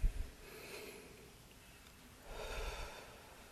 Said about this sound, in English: Let's take in a deep breath together.